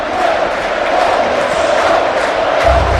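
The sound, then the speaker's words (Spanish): Football crowd at a Racing match at El Sardinero chanting 'que bote el sardinero', a steady massed sing-song of many voices held on one sustained pitch, loud and continuous, with a low rumble rising near the end. “Y el público de mientras, ajeno a todo esto, cantando que bote, que bote, que bote el sardinero. Escuchamos.”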